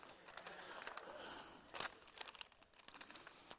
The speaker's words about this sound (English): That shows you how old I am. Someone as old as I am can fold a map that quickly.